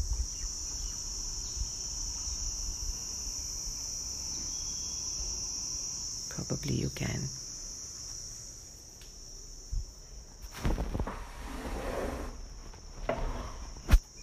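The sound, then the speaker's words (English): Daytime insects such as cicadas chirp and buzz in a small jungle thicket behind a kitchen window, a steady high drone that runs throughout, broken by a few brief louder noises. A voice speaks briefly. “the day insects. Because right behind my kitchen window is this marshy, not marshy, but a jungle thicket. Not very big, but it's there. So can you hear it?”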